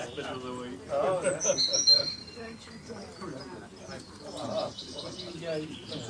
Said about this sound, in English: I'm not talking about the birds chirping.